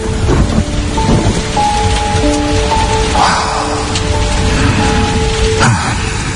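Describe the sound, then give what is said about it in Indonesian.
Rain pouring down in the middle of a hot, muggy night: a dense, steady hiss that stays loud and even from start to finish, with no voices. “Dan tak lama kemudian, tiba-tiba saja hujan turun di tengah malam itu.”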